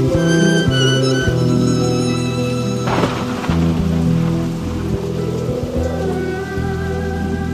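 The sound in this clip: Steady rain falls in a continuous hiss, blended with sustained musical tones and a brief surge of louder noise midway.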